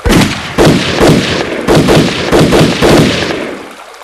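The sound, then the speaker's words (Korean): Rifle gunfire from a firing squad of nine rifles at an execution: a series of heavy, booming shots, one after another, each with a rumbling tail that fades away at the end. “지휘관의 손이 내려지자 아홉 자루의 총이 일제히 불을 뿜었다.”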